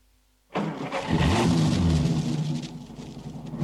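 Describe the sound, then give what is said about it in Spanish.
A truck engine starts abruptly after a quiet moment and settles into a loud, steady rumble with a slight rise in revs, then runs on evenly. “Ese es el hijo, ya está encendiendo el motor del camión.”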